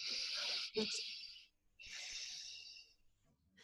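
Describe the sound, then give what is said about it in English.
Alternate nostril breathing demonstrated in a self-care breathing exercise: two long, airy nasal breaths separated by a short pause, soft and hissing, with no talking. “breathe in with the other nostril, and then put your third or fourth finger on the other nostril and breathe out. And it's alternating breath.”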